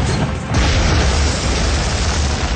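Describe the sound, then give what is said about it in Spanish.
A heavy boom as a light armored vehicle's cannon blasts a large hole through a wall, throwing up rubble and dust. A loud, dense, rumbling roar swells after a short lead-in and holds to the end. “La descarga de la tanqueta abre un enorme hueco en la pared de enfrente.”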